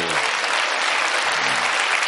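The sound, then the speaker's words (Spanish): Audience applause following a political joke: thick, continuous clapping from many people, loud and sustained across the whole moment without a clear break. “Buen público, este chiste ya tenía un nivel un poquito más alto y la gente ha dicho, yo no lo entiendo, pero aplaudo porque el de al lado lo ha pillado, qué cabrón.”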